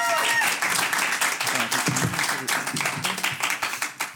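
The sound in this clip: Clapping from an audience after team scores are read out, a brisk patter of individual hand claps that rises and fades unevenly, with a voice talking over it.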